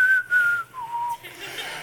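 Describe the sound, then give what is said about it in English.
A person whistles a short two-note phrase: a held higher note that drops to a lower held note, then fades into soft background hiss. “So, you know, no whistling while I'm preaching, you know.”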